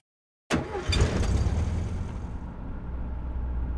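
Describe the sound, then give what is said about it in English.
Mick's van driving along, heard as a steady low engine and road rumble that starts abruptly and holds an even level throughout. “While we drive in Mick's van to do another one”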